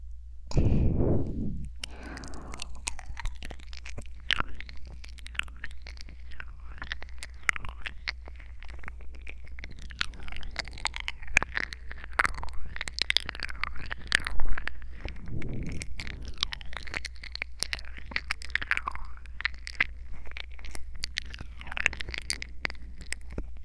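Wet chewing and biting on an ear in an audio drama: a steady stream of many small smacks, squishes and clicks over a faint low hum, opening with a brief low thump.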